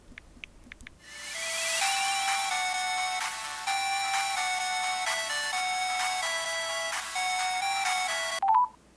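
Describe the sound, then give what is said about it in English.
A phone ringtone sounds for an incoming call: a loud, steady melodic electronic tune of bright repeating tones that plays alone for several seconds before cutting off. “Oh, she wants to call me.”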